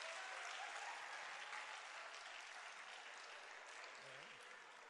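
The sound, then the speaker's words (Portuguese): Applause for Jesus at a religious gathering, a dense, steady wash of clapping that stays faint throughout and tapers slightly toward the end. “Aplauda Jesus, irmão. Para sair dessa, só aplaudindo Jesus.”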